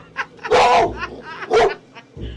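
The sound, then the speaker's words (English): A tough-looking female dog barks loudly, two strong harsh barks with shorter yips and grunts between them. “Well, she's a beautiful dog, but a tough looking one.”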